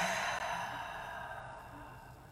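A deep exhale after an inhale through the nose during a guided breathing exercise, a faint, steady breathy hiss that slowly fades over a couple of seconds.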